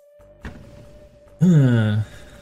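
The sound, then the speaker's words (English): A video game slam attack lands with a single dull thunk, followed by a louder, sustained tonal burst that falls in pitch, all over a steady faint tone. “Gonna have it move up. And then do a slam attack.”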